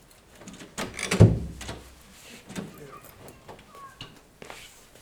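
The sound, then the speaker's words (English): A window is closed during a group gathering, giving a short sliding scrape and knock near the start, with faint voices and room noise around it. “Can we reach for one of the windows to be closed?”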